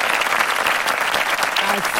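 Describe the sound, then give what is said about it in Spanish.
Dense applause from many clapping hands fills the whole stretch. It is loud and continuous, with no breaks, and its texture stays busy and even. “Así van a ser los aplausos igualitos para nuestra selección mexicana el día de mañana.”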